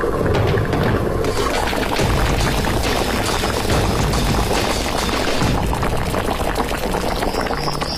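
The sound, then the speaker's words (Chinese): Chicken soup simmering over low heat in a pot, cooked for three hours late at night, gives off a dense, continuous bubbling and burbling that stays loud and even throughout. “深夜，锅中的鸡汤已经小火熬制了3个小时”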